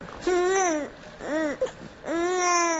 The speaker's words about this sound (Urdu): اس report میں یکجا کیا ہے جو ایک نومولود بچے کی آواز سے شروع ہو رہی ہے